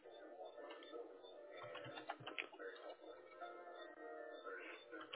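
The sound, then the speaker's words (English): Typing on a computer keyboard: a faint, rapid patter of small keystroke clicks that runs steadily throughout, quiet and slightly uneven in rhythm. “Just a moment. I need to type your answer once again.”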